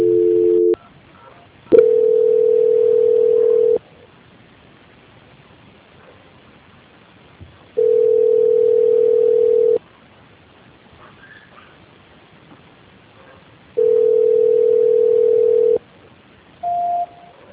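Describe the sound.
Telephone tones sound while a call is being transferred. A steady single-pitch tone repeats in long even bursts, about two seconds on and four off, over faint line hiss, with shorter tone blips at the start and end.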